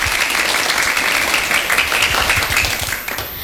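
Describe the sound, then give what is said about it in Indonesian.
Enthusiastic applause for children after a poetry recital at a school event: dense, steady clapping throughout that thins slightly at the very end. “Tepuk tangan yang meriah buat teman-teman kita.”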